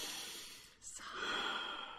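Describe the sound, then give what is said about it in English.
A single deep, slow breath is taken at the close of a spiritual talk. The breath is soft and airy, heard alone and fairly quiet, with a long, breathy sigh-like exhale. “as we come to a close for today, take a deep breath.”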